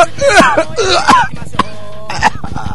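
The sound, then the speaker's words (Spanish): Coughing into a microphone: several harsh, voiced coughs and throat-clearing bursts in quick succession, loud and close. “No toses arriba el micrófono”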